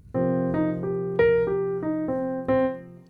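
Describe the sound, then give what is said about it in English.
Ascending and descending arpeggios in eighth notes ring out as eight distinct melodic notes over a sustained low tone, moderately loud and played alone with no talking. “So I'm going to end up repeating the top note and the bottom note, right, of these ascending, descending arpeggios. So it's going to end up sounding like this.”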